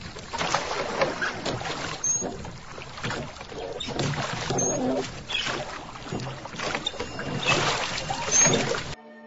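A small boat travels down a river, heard as a continuous watery swish and splash with gentle surging pulses that hold steady throughout and cut off at the end.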